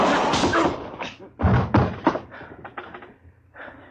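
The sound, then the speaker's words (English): A gun going off into the floor during a struggle over the weapon comes through as a few heavy, dull thuds and bumps, one strong impact near the start followed by smaller knocks. “I held his arm so he couldn't get his gun up. It went off right in the floor there.”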